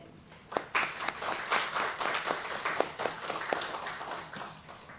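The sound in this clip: A church audience applauds veterans during a service with a moderate patter of clapping. Some sharp individual claps stand out, and the clapping stays steady before easing slightly toward the end.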